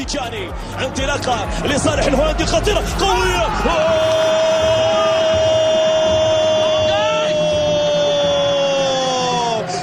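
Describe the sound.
Football fans cheer Tidjani Reinders' goal for Saudi club Al-Qadsiya with shouts and whoops, then a long, steady horn-like tone sounds from midway and holds to the end over the crowd.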